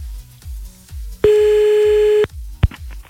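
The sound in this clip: A telephone tone sounds as a call is placed back to someone: one steady, loud tone lasting about a second, then a short blip. Both play over a regular, low, thumping pulse.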